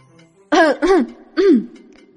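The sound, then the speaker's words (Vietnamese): A man gives a dry cough and clears his throat in three short, raspy bursts. The first two come close together and the third follows after a brief pause. No other sound is heard. “Triệu Phổ ho khan một tiếng, túm lấy hai tiểu hài nhi.”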